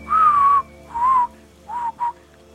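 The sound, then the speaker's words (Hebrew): Clean, pure whistling in four tones: two longer held notes followed by two short ones, steady and clear, heard alone without voices. “מעניין אם השריקה הזאת גם עברה עיבוד מוזיקלי, כי זו שריקה כל כך נקייה”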